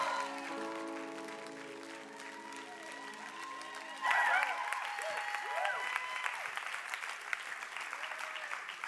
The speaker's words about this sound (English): So let's give him a hand as he comes.